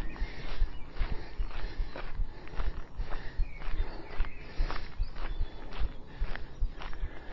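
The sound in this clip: Footsteps walk back down a hill after a hill-running effort, many even steps in a steady, regular rhythm that continues throughout.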